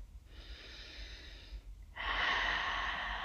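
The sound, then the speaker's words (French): Two long, deep exhalations during a guided relaxation breathing exercise, soft airy rushes of breath with a short pause between them. The second breath is louder and fuller. “Prenons trois grandes expirations pour relâcher le corps. relâcher la tête.”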